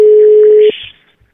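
A telephone ringback tone while a caller waits for an answer: one steady, mid-pitched tone holds for under a second and then cuts off, followed by near silence with a couple of faint low thumps.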